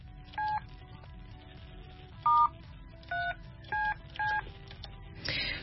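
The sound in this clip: Touch-tone beeps of a phone number being dialed: five short, pure electronic tones at uneven intervals over a quiet hiss, followed by a brief burst of noise at the end.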